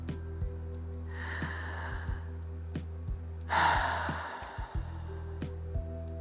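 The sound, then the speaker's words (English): One deep breath in and then a longer exhale, both soft and airy, over a steady low hum, with no speech. “So, I'm going to take a deep breath and move on in the exhale.”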